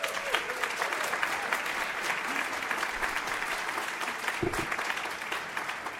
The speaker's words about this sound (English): The applause doesn't count in my 25 seconds.